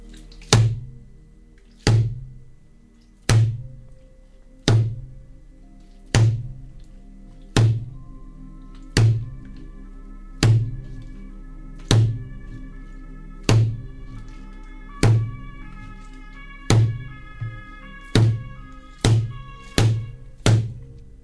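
Drums played during a band soundcheck on a 2013 tour in Belgium: many single, heavy, booming hits repeat steadily about every one and a half seconds, then come closer together near the end. A low ringing tone hangs between the strikes.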